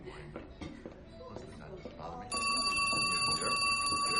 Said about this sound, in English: She answers the phone.